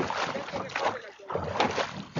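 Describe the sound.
A rowboat is rowed across the Rio Grande, giving a steady rush of water and wind noise that dips briefly near the middle and then swells again.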